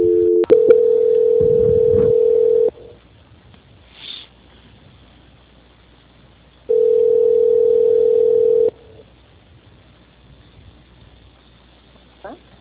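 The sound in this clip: Telephone tone plays while a call is being transferred: two long, steady, thin tones several seconds apart, separated by quiet line hiss.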